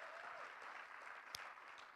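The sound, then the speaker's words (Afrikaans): Congregation applause during a church service, a dense, steady patter of many hands clapping throughout, fairly soft, with one sharper clap standing out briefly. “Kom ons gee vir hulle ook net 'n lieflike handeklap.”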